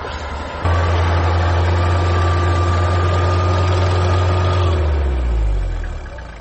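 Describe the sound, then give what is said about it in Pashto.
Car engines idle in stuck traffic on a mountain road, a loud, steady low drone that holds for several seconds, then winds down and sinks in pitch as it fades near the end. “په دغه سیمه کې لیدل کېږي چې زیات شمېر موټر په لاره کې بند پاتې دي.”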